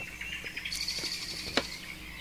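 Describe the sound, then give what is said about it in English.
Birds and frogs call together: scattered high chirps and tweets repeat over a steady, faint background chorus, and one sharper, brighter call stands out near the end. “we're listening to the soothing sounds of birds and frogs playing together.”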